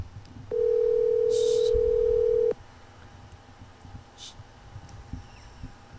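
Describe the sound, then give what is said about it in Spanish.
A single steady telephone ringback tone, about two seconds long, sounds while a call is being placed. It is loud and even, then gives way to low background noise. “Estamos llamando a Mateo, espérate.”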